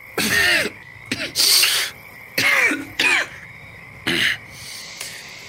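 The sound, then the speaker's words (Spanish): Harsh coughing from a wounded man who has been murmuring, six rough bursts in an uneven rhythm with short gaps between them. “Mientras murmura llega un momento en que tose.”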